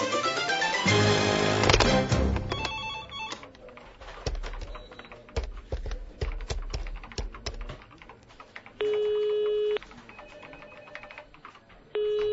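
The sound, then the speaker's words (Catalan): A telephone call being placed: a burst of rapid keypad presses and clicks, then scattered clicks, followed by a steady electronic ringing tone that starts again at the very end. “Mira, vaig a trucar a la meva mare, a veure com es troba.”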